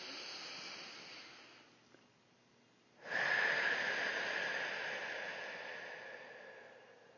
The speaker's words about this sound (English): Now I will ask you to take a deep breath with me.